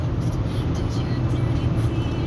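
A car being driven gives a steady, low engine and road rumble, even and continuous, with a faint hiss above it.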